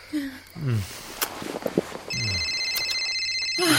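Telephone ringing: brief voiced sounds come first, then a steady electronic ring sounds in high, even tones pulsing through the second half.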